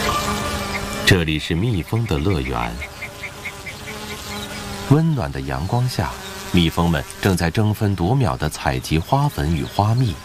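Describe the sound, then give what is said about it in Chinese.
Bees buzz as they gather pollen and nectar on blooming heather across Scottish Highland moorland in warm mid-August sun. A steady insect drone runs under a talking voice throughout. “这里是蜜蜂的乐园，温暖的阳光下，蜜蜂们正在争分夺秒地采集花粉与花蜜，不辞辛劳地酿造香甜的肘石楠蜂蜜。”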